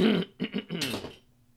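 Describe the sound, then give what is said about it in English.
Throat clearing by a man: a few rough, guttural vocal bursts in quick succession, ending in a breathy hiss, with no talking. “As I clear my throat. Right there in your ears.”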